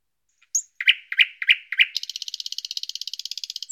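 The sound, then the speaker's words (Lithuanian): Nightingale song: a handful of separate, bright whistled notes, then a fast, even trill of many sharp pulses that runs to the end. The song is loud and clear, with no voices. “Kartą ant namelio stogo nutupė lakštutė.”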